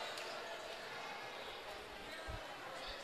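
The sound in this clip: A basketball is dribbled on the court at a girls' high school game: a couple of low, dull thuds under steady crowd noise and voices.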